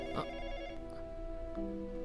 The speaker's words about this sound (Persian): به خاطر همه کارهایی که برات کردم جواب اون تلفنو نده، خواهش میکنم.